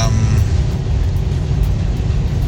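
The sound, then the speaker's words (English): Road rumble inside a car driving along Interstate 5 in Northern California: a loud, steady, low drone of engine and road noise with no distinct separate events. “I'm just driving down the road here on Interstate 5 in the beautiful state of sunny California, Northern California, and decided to do this while I'm driving.”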